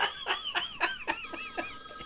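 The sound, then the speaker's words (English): A telephone rings in a rapid run of bright, warbling bell trills that repeat at an even pace, clear and fairly loud, with no voices. “Do you hear that? Sound like the phone was ringing.”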